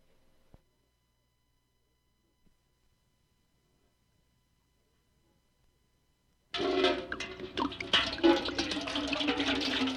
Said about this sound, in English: They're filling their buckets for a car wash on Saturday, February 26th at the Madonna Road, Texaco